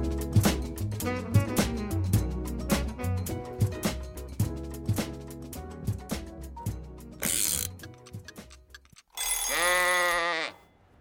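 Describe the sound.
A short musical jingle of brisk, plucked and percussive notes in a bouncy rhythm, then a brief break, and it closes on a long, wavering, bleat-like tone.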